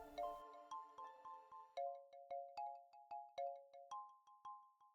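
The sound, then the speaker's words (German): A quiet electronic alert marks an incoming message. Many short, bell-like notes repeat in a steady rhythm, forming a simple melody that steps between a few pitches, with no voices over it. “Oh, Leute, ich habe gerade eine Nachricht von Twitch bekommen.”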